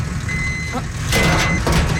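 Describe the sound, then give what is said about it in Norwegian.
A sludge truck waiting behind a garbage truck sounds its reversing alarm, a steady high tone. Underneath is a loud, constant truck engine rumble with a couple of broad whooshing bursts. “Og min gårdsdagens lyd rett og slett litt sånn I anledning denne slambilen her, for jeg sto da og ventet på en sykkel, altså på min sykkel, bak søppelbilen I går.”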